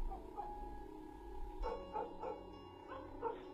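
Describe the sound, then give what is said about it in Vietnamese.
A yellow dog barks in a few sharp, mid-pitched bursts that start abruptly after a low, steady background, moderately loud with no talk. “Con chó vàng bỗng nhiên gầm gừ sủa lên.”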